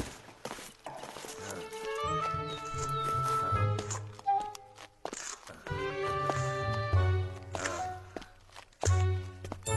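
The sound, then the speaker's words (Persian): Footsteps in worn-out, unmended shoes, scuffing and thudding at an irregular pace under a louder, tonal music backing. “این صدای کفشت اعصاب منو به هم ریخته. اینم شد کفش، چرا نمیدوزیش؟”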